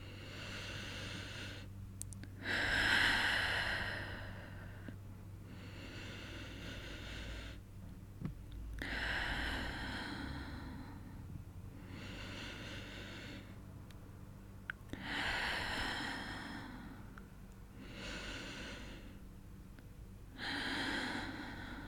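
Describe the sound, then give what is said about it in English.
Slow, deep breaths during a guided relaxation exercise, quiet and steady, each inhale and exhale a soft airy rush, repeating in an unhurried rhythm with short pauses between them. “I want you to take 5 deep breaths with me.”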